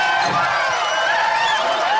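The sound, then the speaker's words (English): A crowd cheering sound effect swells to greet a comedian's arrival: a continuous, loud roar of massed voices with wavering whoops running through it, unbroken from start to end. “Dave Landau's back in the house, and the crowd goes wild.”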